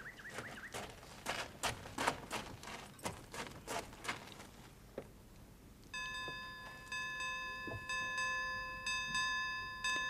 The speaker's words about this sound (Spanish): Vaya un modo de tocar el ángelus. Tilín se ha vuelto loco. Parece que toca rebato.